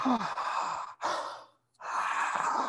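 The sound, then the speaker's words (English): Big, deep breaths drawn through a wide-open mouth during a breathing exercise, loud and airy, a few long breaths separated by a brief pause. “big mouth, wide open, big breaths, way up high. Start with 5 breaths like this.”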